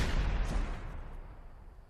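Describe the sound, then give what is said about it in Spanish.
A gunshot in a film scene: a single heavy, booming blast that begins at full force and fades away over about two seconds, with no voices. “Está muerto porque de repente le ha disparado.”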